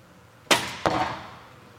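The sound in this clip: Barebow archery shot at a competition, heard as two sharp, loud transients: the arrow's release, then its impact on the target a fraction of a second later, each fading briefly.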